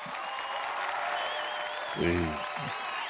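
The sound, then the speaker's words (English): Audience applause at a poetry show, a steady wash of clapping that runs throughout at moderate level, with a voice briefly heard over it near the end. “Let me give you some applause.”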